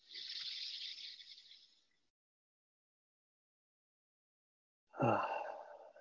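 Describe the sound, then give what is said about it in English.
A group breathes in and out together during a guided breathing exercise, making two long, soft, airy breaths separated by a few seconds of silence. The second breath is fuller and breathier than the first. “Let's actually all take a breath together. You can exhale out, inhale through the nose.”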